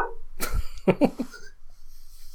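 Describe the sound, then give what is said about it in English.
A dog barks a few quick, sharp barks in close succession, fairly loud over a steady low background noise. “Sorry, my dog is barking.”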